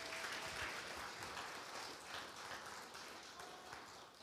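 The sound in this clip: Church audience applauding to welcome a speaker: steady, dense clapping that stays fairly faint and eases off slightly toward the end.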